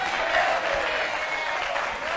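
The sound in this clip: A church audience clapping together: dense, continuous applause that stays even in loudness for the whole stretch, with no clear individual claps standing out.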